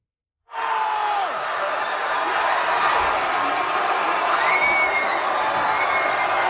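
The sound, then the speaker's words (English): Croatian football fans erupt in loud, sustained cheering and shouting at a Vancouver watch party as Croatia beats Brazil at the 2022 World Cup, the roar bursting in suddenly and holding steady throughout. “What you are hearing is the sound of Croatian fans celebrating here in Vancouver when Croatia beat Brazil at the 2022 World Cup.”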